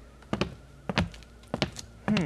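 Soft footsteps of someone creeping on tiptoe up old hall stairs: a few muffled thuds and taps in close pairs, spaced apart, quiet and without talk.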